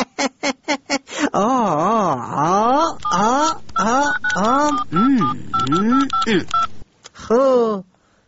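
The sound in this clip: A telephone number is keyed in to call a government minister: a rapid run of short, bright keypad tones opens, then a voice talks in a warbling, sing-song pitch.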